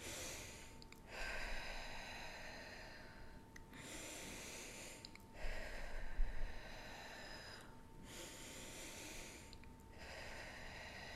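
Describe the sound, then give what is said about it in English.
Rhythmic breathwork breathing, with soft, airy inhales and exhales following one another in a steady, even pattern of several cycles, faint and without any talk. “So when you breathe in a certain pattern, rhythmic, like,”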